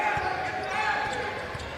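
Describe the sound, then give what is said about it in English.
A basketball is dribbled between the legs during a game, giving a few low, dull bounces under steady play-by-play commentary. “Between the legs dribble, now has to pass up to Thomas.”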